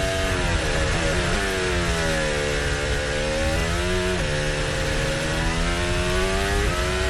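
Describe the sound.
A Formula 1 racing car engine screams at high revs while accelerating toward Stowe corner. Its whining pitch climbs, drops sharply at a gear change near the middle, then climbs again, loud and continuous throughout.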